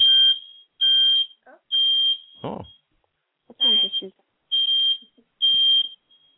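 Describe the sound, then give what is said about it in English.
A home fire alarm sounds six shrill, high-pitched beeps in an even rhythm, with people talking briefly in the gaps between the beeps. “But that's my fire alarm.”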